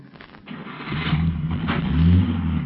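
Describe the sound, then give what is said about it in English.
A car driving off: a low engine rumble that swells and grows louder toward the end, with no voices. “Here's the car.”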